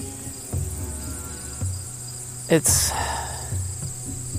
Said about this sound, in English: Other than the bugs, it's pretty quiet.